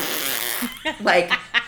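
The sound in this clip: A human voice imitates a fart with a loud, buzzy, blown raspberry that breaks into a few sputtering bursts, mixed with vocal sounds.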